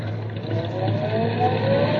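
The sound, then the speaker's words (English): A car engine accelerates as the driver eases the clutch and goes light on the gas, a steady low drone with a faint tone that rises gradually in pitch throughout. “Now, easy on the clutch and light on the gas. Easy on the clutch and light on the gas.”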